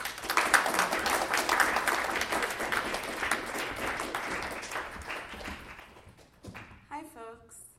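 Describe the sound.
Audience applause welcoming a poet to a reading at The Poetry Project: a burst of clapping that gradually thins and fades, followed by a voice beginning to speak.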